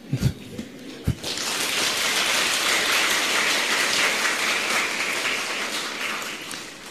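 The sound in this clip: An audience claps during a Buddhist talk. A few soft thumps are followed by an abrupt burst of dense applause that holds for several seconds, then eases slightly.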